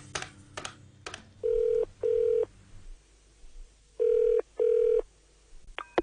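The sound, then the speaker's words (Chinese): A telephone call being placed: a few sharp dialing clicks come first, then the ringing tone sounds in two double bursts of steady, mid-pitched tone separated by a pause, over a low background hum. “打个电话俾佢先。”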